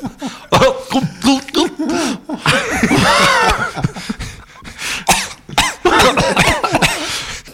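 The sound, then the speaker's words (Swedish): Coughing, a series of loud, harsh bursts spread across several seconds, some rough and throaty like throat clearing, with short quiet gaps between the fits. “Man hostar ut lite. Dunkar ni i ryggen så.”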